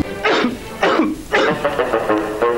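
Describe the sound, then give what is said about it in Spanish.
Harsh, throaty coughing in a cough-lozenge advert comes as several loud bursts. The first three are strongest, and smaller, rougher coughs follow in quick succession. “Evita la tos con pastillas Penetro.”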